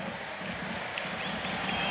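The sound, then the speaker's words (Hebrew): A crowd applauding the Maccabi Tel Aviv youth team as it shows off a cup and plate. The clapping and crowd noise blend into a steady, even roar. “דור ההמשך של מכבי תל אביב פה עם גביע, צלחת, מקבל פה תשואות מהחבר'ה בקהל.”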